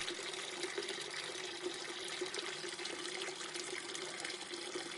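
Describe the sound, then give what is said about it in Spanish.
Water runs steadily from a tap into a filling sink where cut white flowers are being dropped. The rushing hiss stays even and fairly faint throughout, with no voices. “Con unas tijeras comienza a separar las flores del tallo. Las corta minuciosamente, una a una, y las deja caer en el agua.”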